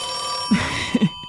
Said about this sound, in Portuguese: num vídeo de 10 minutos com sons de telefone ao longo dos últimos 150 anos. Este que ouvimos é de 1930, daqueles em que é preciso discar o número